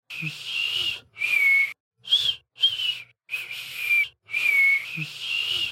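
An adult tries and fails to whistle, producing breathy, hissing blows with only a thin, wavering whistle tone. Several short bursts are separated by brief gaps.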